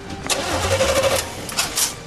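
An engine start is attempted without ignition: a whirring cranking burst rises and holds briefly, then gives way to a few rough, uneven bursts of cranking that never settle into running.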